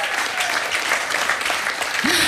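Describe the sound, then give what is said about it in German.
Warm audience applause welcoming a guest on stage at an evening event: dense, continuous clapping at a steady, fairly loud level throughout. “begrüßen Sie mit einem frenetischen, herzlichen, warmherzigen Applaus Alex Knucke vom Franz.”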